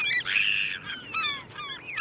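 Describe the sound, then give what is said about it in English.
Gulls calling, several harsh, downward-slurring cries that overlap and repeat quickly, loud and close together with no pause between them. “Every gulls wait at the edge of the action, intent on sharing the leftovers.”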